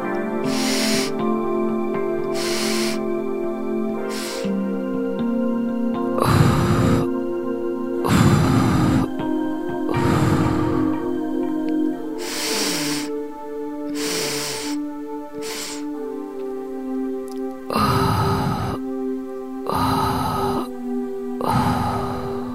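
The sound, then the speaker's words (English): Breathing exercise of exhaling in thirds with holds: many forceful breath bursts separated by pauses, set over a steady, droning tonal music bed. “exhale 1/3 and then hold, 2/3 and hold, and then all the way out. So let me tell you what it sounds like and then we'll do it together.”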